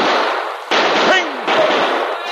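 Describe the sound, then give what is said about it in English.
A Mountie fires a carbine and a revolver into the air, a few sharp, loud gunshot blasts in quick succession, each bursting out with a harsh crack and a brief ringing tail. “With his carbine in one hand and revolver in the other, the Mountie burst out of the underbrush, firing into the air.”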